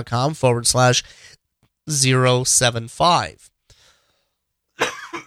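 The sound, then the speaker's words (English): Coughing during an unedited spoken recording: several rough, voiced bursts arrive in two clusters with a pause between, followed by a brief, breathy burst near the end. “And I'm not editing today's episode, so coughs and all stay in.”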